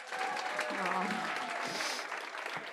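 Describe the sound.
An audience applauds to welcome a speaker, a dense, steady clatter of clapping that holds throughout at even loudness, with voices mixed in.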